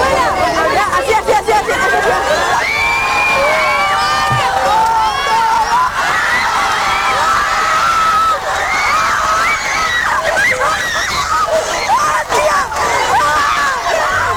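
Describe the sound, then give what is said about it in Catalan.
An audience erupts in reaction to an elderly woman doing biceps curls: a loud, sustained roar of crowd cheering, shouting and screaming that stays dense and unbroken throughout. “Atenció, perquè aquesta que escoltareu és la reacció del públic.”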